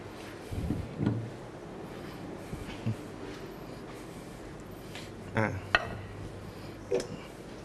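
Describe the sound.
A serving plate is taken out and handled during a Thai spicy salad cooking demonstration, giving a few soft, faint clinks and knocks at irregular intervals over a low background hum.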